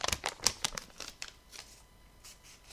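A paper pizza receipt being crumpled and handled, giving many quiet, sharp crinkling crackles that are denser at first and then thin out.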